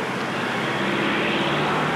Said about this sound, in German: Die Verkehrspolizei ist von dieser Aktion etwas überrascht worden. Der Verkehr staut sich um den Ernst-Reuter-Platz, er staut sich in den Nebenstraßen des Steinplatzes.